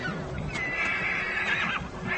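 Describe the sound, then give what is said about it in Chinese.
Ponies whinny beside a frozen stream they have to cross. One drawn-out, wavering whinny lasts about a second over a steady low rumble and rustling. “这条结冰的小溪在小马群中引起骚动，他们必须从这里通过，问题是谁先过。”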